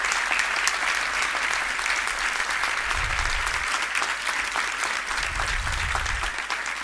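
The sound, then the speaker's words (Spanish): Audience applause at a benefit concert, a dense, steady wash of many hands clapping that carries on without a break for the whole stretch. “Un aplauso también por ellos, por favor.”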